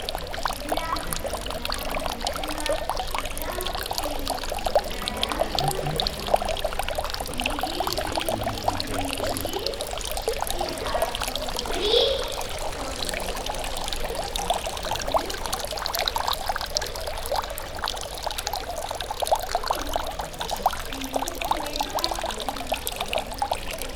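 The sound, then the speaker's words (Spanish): Continuous pouring and trickling water from water toys in a garden, a steady rushing flow that keeps an even level throughout with no voices. “y también puso unos juguetes del viento y del agua. Aquí incorporó los juguetes del agua.”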